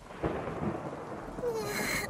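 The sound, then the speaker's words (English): Thunder from a storm, heard as a faint, low, rolling rumble that swells and fades over a couple of seconds. “That thunder is scary”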